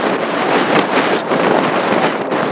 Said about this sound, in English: as the wind currently picks up and begins to howl